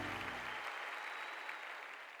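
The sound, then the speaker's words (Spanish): Faint applause given to a man, a soft, steady wash of many hands clapping that slowly tapers off toward the end. “dale esa fiesta de palmas a él.”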